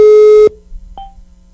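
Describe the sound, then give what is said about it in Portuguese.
A telephone tone as a call is placed: one loud, steady, mid-pitched tone lasting about half a second, then silence and a single brief, fainter beep. “Atenção, atenção, ligando pra você agora. Vai ligar agora. Produção, pode ligar.”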